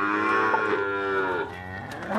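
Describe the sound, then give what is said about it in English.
Dairy cows mooing on a small family farm in the Amazon, giving long, loud, drawn-out calls with rich harmonics; a second moo swells in at the end. “Milk cows and the calves, he says. I milk the cows in the morning.”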